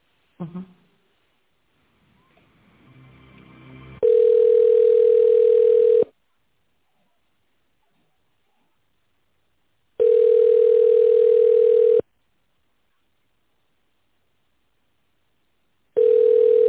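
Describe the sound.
A telephone line tone plays while a call is being connected. A steady, mid-pitched tone sounds in three two-second bursts separated by silent gaps, and the last burst is cut off. A brief click and a rising hiss come before the tone.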